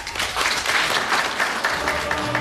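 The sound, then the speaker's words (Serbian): An audience applauds at the end of a 1988 presentation of the book Da Capo al Infinito, which was printed for a symphony orchestra's 50th anniversary. The clapping is dense and sustained at a steady moderate level. “Ovaj aplauz iz 1988. godine upućen je Darinki Simić-Mitrović na kraju predstavljanja knjige Da Capo al Infinito.”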